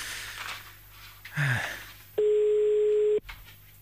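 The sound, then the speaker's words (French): A telephone line tone sounds as a call is placed to Brussels: one steady, mid-pitched electronic tone lasting about a second. Quieter, muffled background noise comes before and after it. “Allez, c'est parti, on y va. On appelle à Bruxelles maintenant.”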